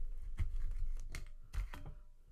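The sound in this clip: Scissors snip through something in a few sharp, crisp cuts spaced unevenly across the moment, each a brief bright burst over a low background hum.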